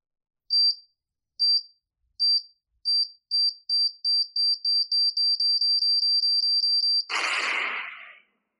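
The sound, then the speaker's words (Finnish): Electronic beeping from a bomb, starting as separate high beeps that come faster and faster until they merge into one continuous tone. The tone is then cut off by a brief, harsh, noisy burst. “Brian hiljeni ja piippaus alkoi muuttua yhä voimakkaammaksi ja tiheämmäksi”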